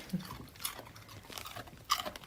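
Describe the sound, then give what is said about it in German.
A female dog chews on a raw carrot, giving faint, irregular wet crunches and gnawing rasps scattered throughout, with a sharper, louder bite near the end. “Das kleine Raspeln im Hintergrund ist ihre Hündin Anouk, über die es heute auch geht, die sich gerade eine Möhre schmecken lässt.”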